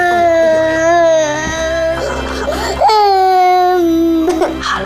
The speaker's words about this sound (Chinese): 不哭了，不哭了啊！